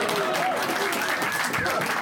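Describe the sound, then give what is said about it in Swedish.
Audience applause at a stand-up comedy comeback show in a packed basement venue in central Malmö: dense, loud, steady clapping that runs unbroken through the whole clip. “Låt oss välkomna Mackan in här med en riktigt stor och varm applåd.”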